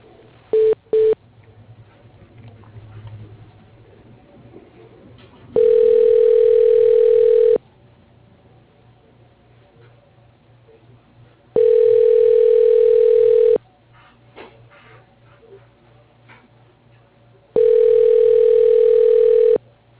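Telephone tones while a call is transferred to voicemail: two short beeps, then three long, steady mid-pitched tones of about two seconds each, evenly spaced by roughly four-second gaps of quiet line hiss, with no talking.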